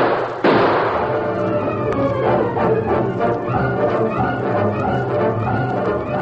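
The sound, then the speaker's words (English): A single sharp gunshot-like bang from a confrontation inside a bank near a crowded street, then a sustained, dense, noisy din with no further clear shots. “The sound of the shots reached Tonto before he could cross the crowded street.”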